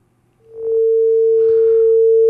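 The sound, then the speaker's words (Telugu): A telephone dial tone after a caller's line cuts off: a steady, loud single-pitch tone that comes in after a faint low hum and holds unbroken, ending in a sharp click. “Okay, caller line cut అయింది.”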